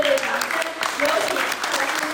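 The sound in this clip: Warm applause from an audience as a Buddhist lecturer comes on stage. The clapping is steady and full, and a voice speaks over it.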